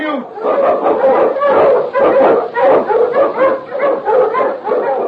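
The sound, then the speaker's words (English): A Malamute sled dog, a strong lead dog, barks loudly in a fast, continuous run of many sharp barks with brief gaps between them. “Malamute! The Wonder Dog King, swiftest and strongest of Eskimo lead dogs, blazes the trail through storm and snow for Sergeant Preston”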